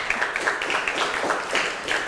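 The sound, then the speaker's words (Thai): Students applaud a classmate in a classroom after a presentation, a soft, steady patter of many hands clapping throughout. “ขอบคุณค่ะปรบมือให้เพื่อนหน่อยค่ะ”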